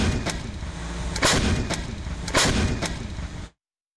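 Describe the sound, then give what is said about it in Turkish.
Panter howitzer artillery fire during a military exercise: two heavy, booming blasts with a few sharper, lesser bangs between them over a continuous low rumble, ending abruptly. “Panter obüsü 27 adet mühimmat kapasitesiyle kesintisiz ateş gücü sağladı.”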